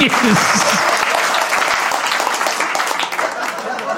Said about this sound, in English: Give this lady a round of applause.